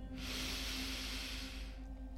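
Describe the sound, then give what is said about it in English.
A slow, deep breath drawn in through the nose or mouth: a soft, steady airy hiss lasting about a second and a half, faint and alone with no talking. “And with every deep breath out, say to yourself, relax. Deep breath in.”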